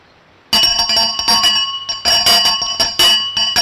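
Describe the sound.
A hand bell rings to summon a butler: several quick, bright, metallic rings in an uneven rhythm, loud and alone, each with a clear high ringing tone that lingers briefly.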